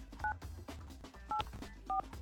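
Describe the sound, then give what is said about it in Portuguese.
Telephone keypad dialing produces three short, faint dual-tone beeps at uneven intervals over a low background hum. “Deixa eu ligar, eu vou ter que ligar, é muito incomum.”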